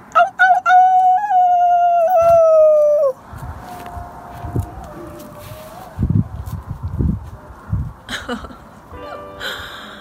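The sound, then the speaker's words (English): People howl outdoors at night in Boulder, imitating wolves or dogs. One loud, wavering human howl lasts about three seconds and slides down at the end, followed by faint howls far away and scattered small noises. “people in Boulder are going outside and howling, and I came out onto my balcony to see if I could hear anybody”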